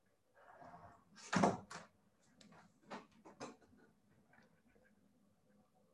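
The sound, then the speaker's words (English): A celestial globe is fetched from a kitchen cupboard, making a few knocks, clunks and rattles of handling, with one louder bump early on and softer taps fading out afterward. “I can illustrate the problem with the celestial globe you may have noticed on the kitchen cupboard behind me. Let me get it.”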